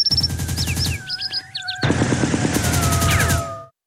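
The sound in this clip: Rapid gunfire, several shots fired in quick succession as a dense string of sharp bursts, preceded by high, chirping bird calls near poplar trees.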